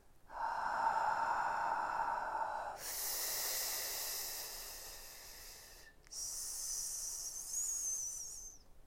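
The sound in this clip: A voice doing a breathing exercise exhales three long consonants in one breath: a breathy H, then a broader rushing F, then a sharp high hissing S. Each is held for about two to three seconds.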